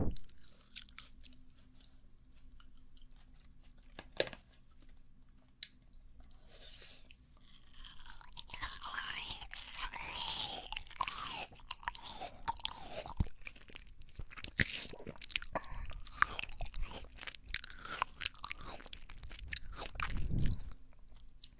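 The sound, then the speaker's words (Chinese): Someone chews and eats watermelon, making faint, wet, crunchy bites and mastication. Many irregular chewing sounds follow one another alone, without talk. “快把西瓜咽下去！”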